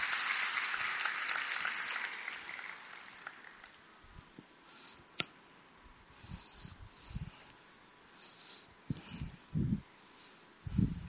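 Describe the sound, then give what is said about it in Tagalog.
Applause rises from an audience during a church service, fairly faint and steady for about four seconds before fading out. Near-quiet follows, broken by occasional soft thumps and knocks. “Tawagin po natin ang kapatid natin, si MJ. Palakpakan po natin ang Panginoon.”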